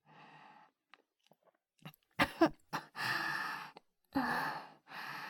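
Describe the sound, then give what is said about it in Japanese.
Choking coughs from someone overwhelmed by a strong smell: a couple of sharp, harsh coughs, then long breathy gasps and heavy exhales at moderate volume. “失礼。匂いがあまりにも強いので、むせてしまいました。”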